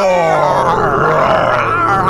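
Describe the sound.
Several people imitate lion roars with their voices, a loud, continuous mass of deep, growling, overlapping cries that holds steady for the whole stretch.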